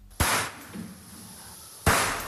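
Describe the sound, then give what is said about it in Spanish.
Gunshots from a video of fawns being shot at a slaughterhouse in Segovia: two loud, sharp cracks about a second and a half apart, each followed by a short, fading tail. “Así suena el vídeo que ha publicado la Fundación Igualdad Animal, que habla de 200 cervatillos disparados en un matadero de Segovia.”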